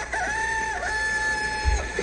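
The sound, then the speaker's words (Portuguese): A rooster crows one long, drawn-out call, holding a bright, steady pitch for well over a second before breaking off. “Se o galo cantou”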